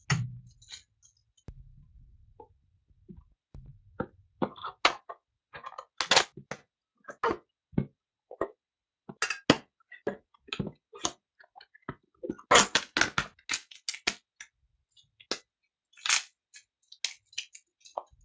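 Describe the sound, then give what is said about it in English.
Bubble wrap crackles as it is unwrapped from a model: many sharp, irregular clicks and pops, some in quick clusters and others spaced apart, crisp and fairly quiet, with no talking. “I'm actually unwrapping bubble wrap at the moment of the model”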